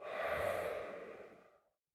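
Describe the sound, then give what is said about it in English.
A slow breath is let out during a guided relaxation exercise: one long, soft exhale that fades to silence after under two seconds. “Take a slow breath in. Breathe out slowly.”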